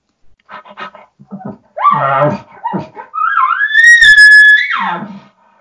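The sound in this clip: A person's voice imitates a dog: a few short breathy huffs and grunts, then a long, high, tonal whine that climbs and holds before cutting off.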